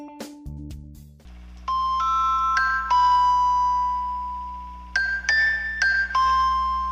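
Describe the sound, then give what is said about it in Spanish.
A mobile phone ringtone plays an electronic melody of bright, bell-like notes over sustained low tones. Two bursts of quick rising and falling chimes are separated by a held note, and no voices are heard. “Güey, está sonando tu teléfono. A verga, pero yo no tengo ese tono, güey.”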